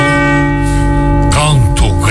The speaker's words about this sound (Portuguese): escuto os sinos da catedral